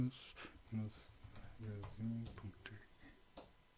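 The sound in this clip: Someone types an email address on a computer keyboard: quick, light key clicks in irregular runs, heard under German conversation.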